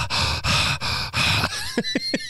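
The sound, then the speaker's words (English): A voice imitates heavy breathing close to someone's face, like a nurse leaning in: four long, breathy huffs in a slow rhythm, then a run of quick, short panting bursts. “What nurse do you know that would breathe? Like, if you were in the hospital and a nurse just started getting, like, really close to your face and going,”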